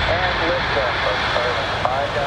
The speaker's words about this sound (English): A SpaceX Falcon 9 rocket lit up the night sky for a spectacular launch.